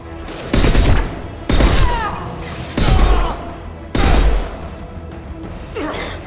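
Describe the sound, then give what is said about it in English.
Sniper rifle burst fire in a video game: four loud bursts of rapid, tightly clustered shots separated by short pauses, then a fainter fifth burst near the end. “So this sniper rifle is really great because it allows us to burst fire our sniper shots.”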